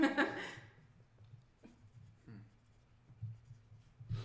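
A pen scratches across paper while someone draws, giving soft, faint scraping strokes that come in uneven bursts.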